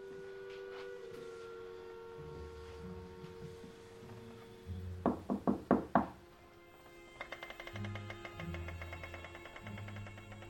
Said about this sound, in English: he creeps towards the room and knocks on the door